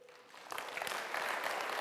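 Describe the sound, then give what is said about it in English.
Audience applause at a Christmas-themed talk: a light patter swells abruptly at about half a second into a dense, loud, sustained wash of many hands clapping that holds steady to the end. “Clap if you love Christmas, because your hands are like, you know.”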